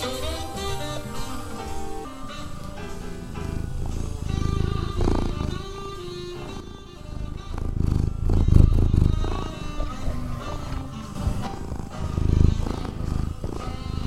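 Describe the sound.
A cat purring, a low rumbling purr that swells in a few stronger pulses beneath sustained, tonal jazz-like music running throughout.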